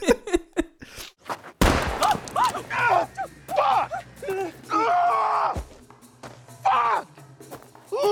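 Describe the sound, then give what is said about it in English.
Gunshots in a scene from the film Cocaine Bear, where a detective shoots off two of a man's fingers: a few sharp, loud bangs at the start, then a man screams in pain while other voices shout. “the detective shoots off two of David's fingers.”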